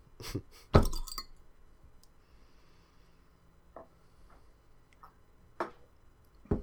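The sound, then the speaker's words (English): A beer bottle being cracked open, heard as a quiet burst of sharp glassy clicks with one louder snap near the start, then a few faint scattered ticks. “So we're gonna crack open this bottle.”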